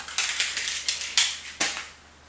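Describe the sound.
Crackly snaps come as the colored top is peeled off a marshmallow-filled treat, a series of sharp, brittle bursts that each fade quickly, the last two loudest, before it falls quiet.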